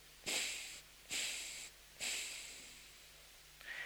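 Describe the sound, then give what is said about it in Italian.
Breathing through one nostril during a Buddhist meditation preparation, heard as three long, hissy nasal breaths, each starting sharply and slowly fading, with a fourth just beginning at the end; no talk over them. “Quindi si chiude il sinistro, si inspira e si espira in tre volte”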